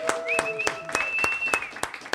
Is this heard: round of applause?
yes